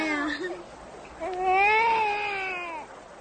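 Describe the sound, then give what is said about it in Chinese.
A baby boy cries in two loud, wavering wails, a short one followed by a longer sustained one, heard alone. “孩子一见生人就哭了”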